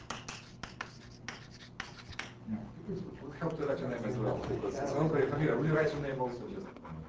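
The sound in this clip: Handwriting a name with a pen: a few quick, scratchy strokes, then a person talking over softer continued writing.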